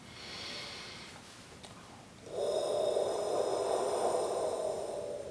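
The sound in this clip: A voice makes a sustained, breathy 'hoh' sound from the back of the throat, a vocal exercise tied to the stomach and digestive tract. It swells after a softer breathy start and holds steady for about three seconds.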